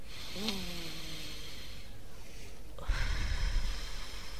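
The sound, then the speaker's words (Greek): A deep, slow inhalation during a guided breathing exercise: a soft, steady airy rush that swells somewhat louder toward its end, with no talk. “Μία εισπνοή βαθιά και απαλά απαλά. Άλλη μία.”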